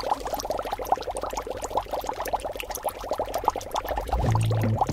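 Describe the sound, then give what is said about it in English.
Dry ice bubbles hard in a bowl of warm water, giving a dense, steady stream of quick fizzing pops and gurgles throughout, with no voices. “when you put dry ice in a bowl and pour warm water over it, it bubbles like crazy.”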